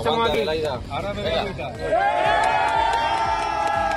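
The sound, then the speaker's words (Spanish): Spanish military emergency rescue workers cheer and whoop after pulling survivors alive from earthquake rubble: excited, overlapping shouts and voices, with one long high call rising above the group in the second half. “la alegría de los rescatistas cuando consiguen sacar de entre los escombros a personas con vida. Este es el sonido de los brigadistas españoles de la UME”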